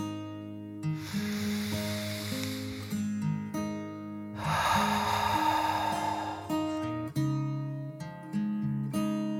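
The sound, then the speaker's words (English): A deep breath drawn in and let out: two long, soft breathy hisses, the second fuller and louder, over quiet sustained music. “he took a deep dragon breath, in and out.”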